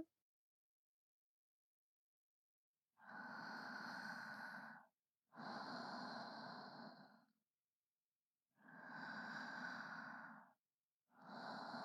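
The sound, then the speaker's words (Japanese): Deep breathing during a guided relaxation exercise, drawn slowly from deep in the belly. After a stretch of silence come four long, soft, airy breaths with short pauses between them, the last one cut off. “そうしたら次は深呼吸。”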